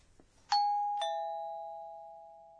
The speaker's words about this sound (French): C'est un carillon?